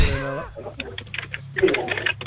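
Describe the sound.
Typing on a computer keyboard while an email is finished, a patter of light, quick key clicks at an uneven pace, starting just after a short burst of voice.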